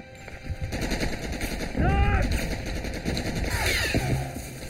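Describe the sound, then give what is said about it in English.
Heavy gunfire in combat, with dense rapid machine-gun bursts rattling almost without pause. The loud, crackling, continuous volley swells and recedes slightly over several seconds. “there's a lot of heavy fire. You can't go.”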